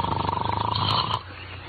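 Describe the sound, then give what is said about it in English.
A loud, rough snore with a rattling, fast-pulsing buzz and strong resonant tone, stopping abruptly partway through and leaving quieter background. “Snoring? Who's snoring? I'm not snoring. It's that darn kid, that's who it is.”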